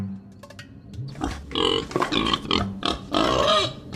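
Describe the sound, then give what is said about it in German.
A wild boar grunts and snorts in rough, harsh bursts. The sounds start quieter and build into louder, grating, gravelly calls that run back to back. “Das Wildschwein ist ein wunderbares Tier”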